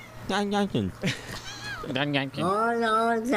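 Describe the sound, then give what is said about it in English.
A pet cat meows in a few drawn-out, wavering calls, blended with people talking. “That was a cat, by the way.”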